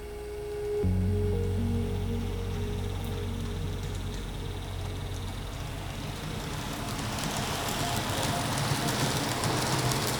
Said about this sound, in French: Maintenant qu'on sait qui est cette ETR 610, on va dans un premier temps, on va d'abord la ramener sur la voie de programmation.